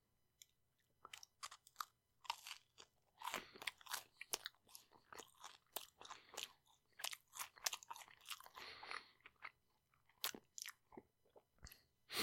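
Close chewing of a bite of egg: many quick, irregular moist clicks and soft crunches in an uneven rhythm, with no talking.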